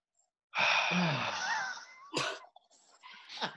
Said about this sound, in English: Sorry, I was just taking a I'm just taking a deep breath of that salty beach air.